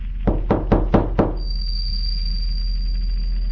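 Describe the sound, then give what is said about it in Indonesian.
Five sharp knocks come in a quick, even rhythm. Afterwards a faint, steady, high-pitched tone continues on its own. “Tapi lagi-lagi ketukan itu kembali terdengar.”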